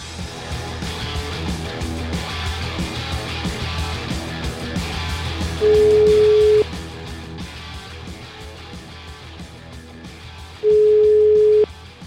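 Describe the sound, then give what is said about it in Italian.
Telephone ringback tone as a call is placed over the line: two steady, mid-pitched beeps, each about one second long and spaced about five seconds apart, sounding over a continuous music bed. “Io farei una piccola telefonatina a questa signora Puglisi.”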